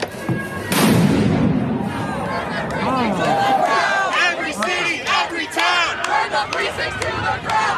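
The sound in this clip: Black Lives Matter protesters gathered in a street in the centre of Portland, in the US, raise a loud crowd roar. Massed chanting and shouting rise and fall in a steady rhythm without a break.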